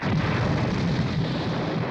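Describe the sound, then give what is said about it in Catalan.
A large explosion erupts from leaking barrels punctured by bullets: a loud, dense roaring blast that rumbles on without break for the whole two seconds, heavy in the low end. “Embrolla líquid i una gran explosió fa sortir en Krilin disparat.”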